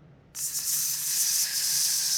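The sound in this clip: A snake's hiss, a steady, bright, airy hiss that starts abruptly after a brief silence and continues evenly to the end, heard alone.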